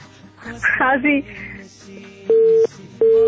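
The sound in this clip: A telephone call cut off, leaving the line's tone. After a brief burst of voice, two steady, mid-pitched beeps of equal length sound with a short gap between them.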